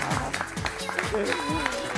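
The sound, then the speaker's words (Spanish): An audience claps after a magic trick with linking rings, quick regular claps under overlapping voices. “Y le damos un aplauso, saluda, thank you.”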